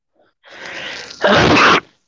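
A single human sneeze: a softer breathy intake builds first, then a sharp, loud burst of air cuts off abruptly.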